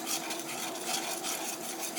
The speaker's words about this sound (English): Whisk, whisk, whisk. All over, around in little circles, all over the bottom of the pan.